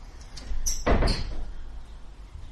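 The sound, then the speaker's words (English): A door shuts with one dull, heavy thud, preceded by a few faint knocks and followed by a short rattle that dies away over a low, steady background hum. “Somebody will need to go shut the door for Adam again.”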